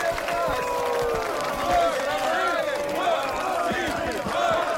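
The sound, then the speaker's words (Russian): A film crowd chants in celebration, with many overlapping voices shouting loudly and continuously in rising and falling cries. “Макс идет сквозь скандирующую толпу с поднятыми вверх руками.”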